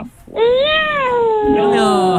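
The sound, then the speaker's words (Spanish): A large cat lets out one long, drawn-out meow that climbs slightly in pitch, then slowly slides downward as it trails off, loud and clear with no other sounds over it. “Hay un gato ahí. Hay un gato muy grande.”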